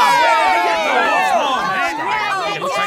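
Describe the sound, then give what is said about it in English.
A crowd cheers at a children's sports game with many overlapping excited voices and shouts, loud and continuous throughout. “Oh, I love to hear all the cheers from the crowd.”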